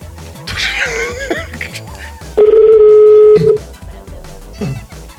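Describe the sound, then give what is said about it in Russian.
A telephone call is dialed and reaches a busy line: one steady, loud electronic tone lasting about a second, with talk and laughter before and after it. “Номер занят. Оставьте сообщение. А, она не говорит нет, она просто не берет трубку.”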